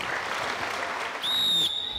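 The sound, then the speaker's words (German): A small round of applause at a youth football match, greeting the referees before a season-closing game: a steady wash of clapping from a modest crowd, with a shrill whistle-like tone joining near the end. “Einmal kleiner Applaus für die.”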